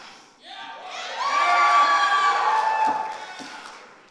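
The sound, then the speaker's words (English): Cheering crowd at a chapel gathering applauding first-year students, with shouts and whoops that swell to a loud sustained peak and then gradually fade. “Let's hear for the first year students.”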